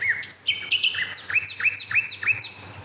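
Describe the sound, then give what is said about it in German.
A nightingale sings a clear run of high chirps and whistled notes, then a series of sharp, downward-sweeping calls repeated in a steady rhythm, with no voices. “Ja, herzlich willkommen zum dritten Nachtigall-Spektakel.”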